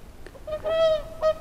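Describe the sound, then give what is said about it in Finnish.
Swans calling on a shore in autumn as ice starts to form: a few loud, nasal honks, one long steady call in the middle and a shorter one after, with no talk. “Ja silloin kun jäätä alkaa tulla, joutsenet seurustelevat.”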